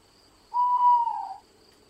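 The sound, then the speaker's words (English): An owl gives a single soft hoot lasting under a second. The note holds steady and then dips slightly in pitch before fading, alone against near silence with only a faint steady hiss. “The only sounds you can hear is the owl and your breath.”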